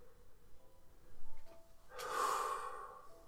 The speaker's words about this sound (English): At one point, she actually just snorts at something that's written on